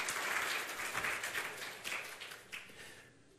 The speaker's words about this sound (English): Hey, man, let's give him a hand.